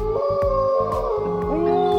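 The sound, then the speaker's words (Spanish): Wolves howl from recorded sounds played on an MP3 player in the mountains. Long, overlapping tonal howls glide and partly slide downward over a steady, low pulsing rhythm, all at an even level throughout. “cuando la montaña reproducirá en un MP3 sonidos de lobos guargos aullando.”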